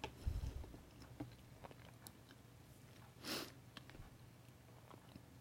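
Faint, irregular chewing and biting sounds from someone eating mentaiko (pollock roe) at dinner. The soft mouth noises are spread through a quiet stretch with no talk.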